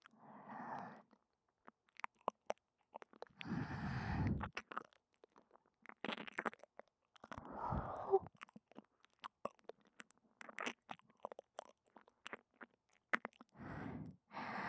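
Wet mouth sounds of ASMR ear licking, with many soft smacks, slurps and squishy clicks in irregular bursts separated by quiet pauses, faint and close, with no talking.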